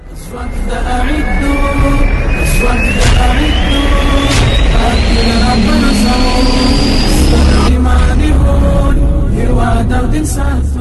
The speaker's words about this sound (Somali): diyaarada helicopteris ah ayaa ka qayb qaadanaya tababarka